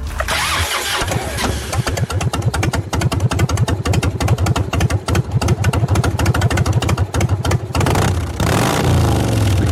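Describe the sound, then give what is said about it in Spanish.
A motor engine starts and runs with loud, rapid, evenly spaced firing pulses that stay strong and steady, and the rhythm changes briefly near the end. “nos decía alguna vez que este sonido es mágico, terapéutico y que cuando brota de un motor propio equivale, bueno, a los latidos del corazón de un hijo”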